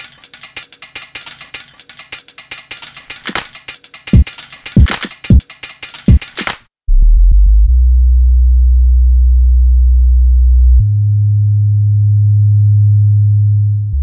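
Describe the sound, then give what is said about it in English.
A warm, deep sub-bass tone that sustains smoothly and steps to a different low note partway through. It follows several seconds of clattering, percussive scraping hits that stop abruptly before the bass enters. “Just warm, deep sub bass. I wanted you to almost not even hear it.”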